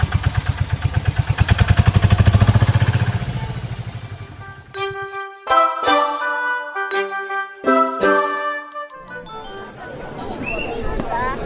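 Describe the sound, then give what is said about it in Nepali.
A three-wheeler tempo engine starts with a rhythmic low chugging for a few seconds, then fades. Clear tonal chiming sounds follow. “ल मैले tempo start गरेँ है त।”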